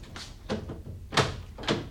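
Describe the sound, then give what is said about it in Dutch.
A front door being opened, heard as a few dull thuds and knocks at uneven intervals with quiet gaps between them and no talking. “Ik ga even open doen.”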